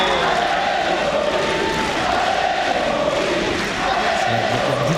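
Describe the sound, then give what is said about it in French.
Tennis crowd at Court Suzanne Lenglen cheering and roaring in a loud, unbroken mass of noise, sustained throughout without pause. “Justement, il a été porté par le public du Suzanne Lenglen qu'on peut-être écouter.”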